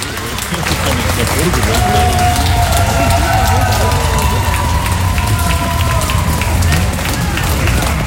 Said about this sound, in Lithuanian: Finalinės ovacijos lydėjo ne tik plojimai, bet ir gyvo žiūrovų reakcijos po spektaklio.